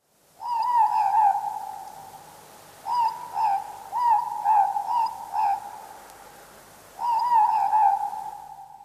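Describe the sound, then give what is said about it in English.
A morepork owl (ruru) calls in a series of repeated two-note hoots, each a low, soft "more-pork" pair separated by short gaps, clear and alone with no other sounds. “aruru, an owl. But not just any owl, it was a morepork.”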